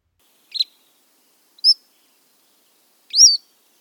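A Cordilleran flycatcher sings its three-phrase song: three short, high, separate notes, with the last one longer and fuller.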